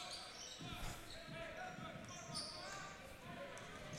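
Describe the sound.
A basketball is dribbled during a high school boys' game, with repeated bounces under steady talk and crowd noise.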